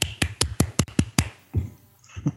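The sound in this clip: One person clapping as a round of applause: seven quick, sharp, evenly spaced claps in a fast steady rhythm, then a couple of fainter low sounds.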